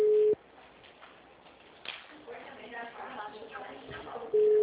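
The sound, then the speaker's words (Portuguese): An unanswered phone call rings out as a steady, mid-pitched ringback tone over a telephone line. A brief burst of tone opens, muffled voices talk in between, and the tone returns near the end. “Não está atendendo. Não. Vai ter que tocar de novo.”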